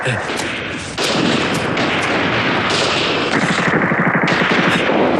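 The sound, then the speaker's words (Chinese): Gunfire outside, a rapid machine-gun-like crackle of dense, loud bursts that runs without pause and thickens after about a second. “肖大爷，这外头怎么打枪了？”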